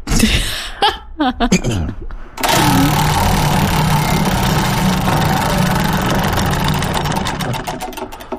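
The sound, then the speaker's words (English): A prize wheel spins for a radio morning show's name draw, giving a dense, continuous clatter of rapid ticks that holds steady and then thins out toward the end. “we can go ahead and spin the WBGL Morning Show with Jonathan and Court Wheel of Names.”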